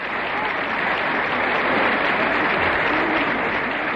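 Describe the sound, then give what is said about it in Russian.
Warm applause from the audience and the performers on stage at the close of a concert evening honoring a playwright, a loud, dense and unbroken roar of clapping. “Разрешите к тем горячим аплодисментам, которые раздаются сейчас и в зрительном зале, и на сцене, присоедините наши самые добрые пожелания.”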